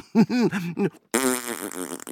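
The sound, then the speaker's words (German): Fart noises like a whoopee cushion: a few short, buzzy bursts followed by a longer raspy blast that trails off, fairly loud and with no talk over them. “du bist echt quasi ein wandelndes Furzkissen. Genau, der Schrecken aller Sitzmöbel. Kein Polster ist vor mir sicher.”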